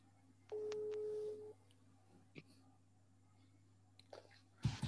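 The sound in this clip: Telephone tones as a call is placed to a listener on a religious call-in programme, a faint steady tone lasting about a second, followed by a few soft clicks and a louder burst at the end.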